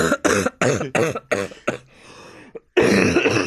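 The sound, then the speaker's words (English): A person coughs hard in a quick series of harsh, forceful bursts, then makes a drawn-out, raspy throat-clearing to bring up phlegm, followed by one more loud, rough burst. “By choking to death on your own phlegm, mere feet from me.”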